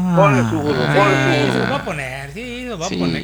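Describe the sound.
Donkey braying sound effect: loud, harsh, see-sawing calls whose pitch swoops up and down in a few rough cycles, filling the whole short clip.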